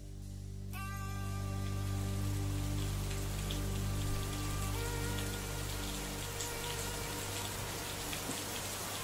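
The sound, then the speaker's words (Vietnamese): Rain falls as a faint, steady hiss of patter, with a sustained low tonal drone running beneath it. “Lúc ngẩng mặt lên, trời đã bắt đầu đổ mưa.”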